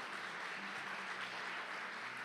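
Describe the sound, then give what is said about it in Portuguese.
A church audience applauds after a closing prayer, a steady, faint wash of clapping that holds evenly throughout with no voices over it. “Pode aplaudir Jesus.”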